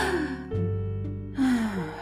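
A person taking a soft, sigh-like breath, with a second breath after a pause, over a quiet steady tonal background.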